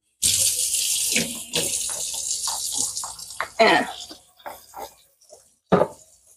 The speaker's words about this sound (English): That's why we gonna wash our hands for this next one.